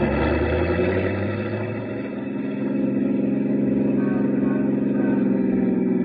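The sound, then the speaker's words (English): Taxi cab engine driving off in pursuit of another cab: a loud, steady rumble that dips briefly, then climbs in pitch as the car accelerates away. “Another cab drove up to take that spot in front of the building, and I jumped in. I told the driver to follow Kenny's cab.”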